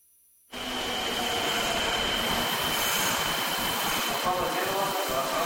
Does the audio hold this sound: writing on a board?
no